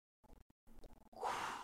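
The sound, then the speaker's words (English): A faked inhale, as if pretending to draw in smoke: a few soft, short sounds and small pauses, then one sustained, breathy intake of air that runs to the end. “I would always do the fake inhale. How do you do that? Let's go.”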